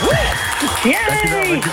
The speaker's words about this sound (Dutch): ik wil even een heel groot applaus voor niemand minder dan de Gadget Man!